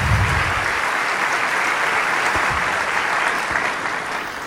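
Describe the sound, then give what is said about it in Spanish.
A church audience applauds with steady, dense clapping that holds loud and alone, then eases slightly at the end. “¿Cuántos le damos un aplauso al Rey de Reyes?”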